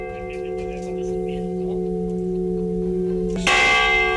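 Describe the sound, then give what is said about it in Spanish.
Restored church bells of a parish church ringing: a steady, sustained metallic hum of overlapping bell tones, joined near the end by a fresh, louder strike that brightens the sound. “queremos ponerte el de las campanas restauradas de la iglesia parroquial de Viscarrués, que sonarán dentro de una fiesta organizada para el próximo sábado”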